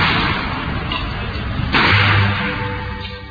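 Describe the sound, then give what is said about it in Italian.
A gunshot fired by carabinieri police during violent street clashes under a portico in Bologna: a single sharp crack rings out over a dense, hissy background of crowd and street noise. “I carabinieri sparano.”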